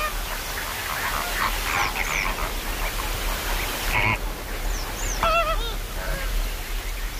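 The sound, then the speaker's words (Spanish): A flock of flamingos calls in the Doñana wetlands in September, giving a few scattered, goose-like honks and nasal calls over a steady rushing background hiss. “Este sonido auténtico en Doñana de los flamencos es como un espejismo de colores blancos y rosas, naranjas, en una especie de diálogo concreto”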